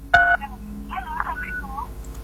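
Telephone dialing tones on a call-in phone line: a loud two-tone beep near the start, followed by several softer, warbling electronic tones over a faint low hum.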